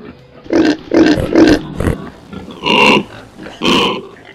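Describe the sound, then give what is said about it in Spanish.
Pig grunting and oinking while wallowing in mud and garbage: a series of several rough, guttural grunts in short bursts, the last two longer and brighter, with no voices. “ve como un cerdo está revolcándose en medio de lodo y basura, comiéndose los muebles y dejando sus pestilentes heces por doquier, mientras va destruyendo todo a su paso en medio de orines y sonidos guturales propios de un cerdo.”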